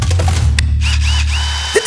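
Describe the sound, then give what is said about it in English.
A Makita multi-tool runs with a steady low buzzing drone and faint higher whines over it, ending with a short sharper burst. “Makita multi-tool.”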